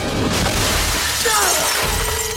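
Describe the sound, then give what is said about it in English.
Glass shatters as a harpoon smashes through a vehicle windscreen: a loud, dense burst of breaking and crashing noise that fills the whole moment, with a brief descending whine partway through. “The harpoon smashes through the windscreen.”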